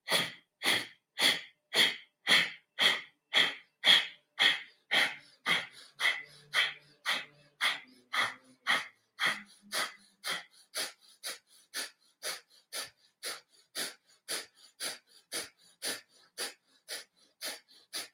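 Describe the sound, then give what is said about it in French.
Rapid, forceful breathing during a breathing exercise: many sharp, evenly rhythmic breaths follow each other at a brisk pace. They start loud and grow steadily fainter toward the end, with no talking. “Et on va prendre une inspire, on y va.”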